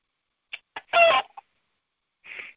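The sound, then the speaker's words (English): Chicken clucks from a video game: a few short clucks around one longer, louder harmonic squawk, then a single cluck after a brief pause, with no other sound. “to hell with that chicken”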